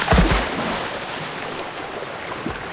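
Splashing of animals jumping into water from a den under willow roots. A sharp burst of splash comes at the start, followed by steady rushing water noise.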